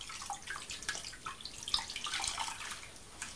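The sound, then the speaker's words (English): Water running from a bowl of warm water to wet a cloth: a steady, bright, hissing splash that holds at an even level with small ripples throughout, and no voices over it. “Should we just wet the cloth?”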